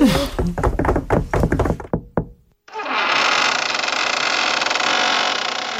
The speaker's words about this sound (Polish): Kto puka?